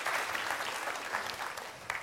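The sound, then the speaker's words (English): A church audience applauds steadily, a dense wash of many hands clapping at a moderate, even level for the whole stretch, with no voices standing out. “And so just give them a big round of applause for stepping in.”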